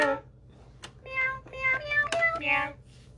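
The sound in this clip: A voice imitates a cat meowing, giving several short, tonal meows one after another at moderate loudness over a low, steady hum.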